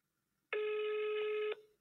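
A telephone rings once: a steady electronic tone lasting about a second, sounding alone against quiet and then cut off with a short fade.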